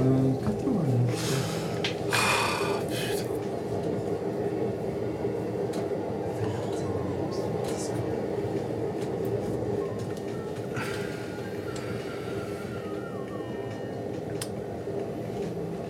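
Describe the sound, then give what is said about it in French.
A Paris-style metro train runs with a steady, loud rumbling roar throughout, broken by occasional brief higher hisses and squeaks. “Attends, déjà, on se met bien, on se met dans le métro.”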